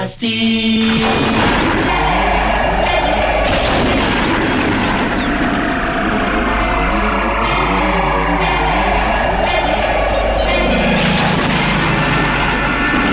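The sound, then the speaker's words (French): A radio jingle for the show Les 4 Fantastiques plays as a loud, dense, continuous mix with an engine-like roar and sweeping tones throughout, and no talking. “Jingle des 4 fantastiques.”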